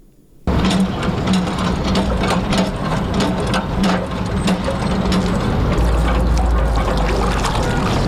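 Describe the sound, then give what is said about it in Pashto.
A water pump draws well water in the Khwaja Boghra area of Kabul, a steady mechanical clatter with rapid rhythmic ticking, continuous and fairly loud throughout. “د اوبو دغه بامبه چې د کابل ښار د خواجه بغرا په سیمه کې د اوبو په برخه کې د خلکو د ستونزو یوه برخه هواروي”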